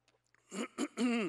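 A person clearing their throat of phlegm in a few rough, voiced bursts, the last one longer and more tonal, all quite faint.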